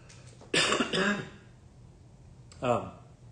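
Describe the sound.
Throat clearing from a scratchy throat: a longer rough, voiced rasp, then a shorter one after a pause, moderately loud against quiet.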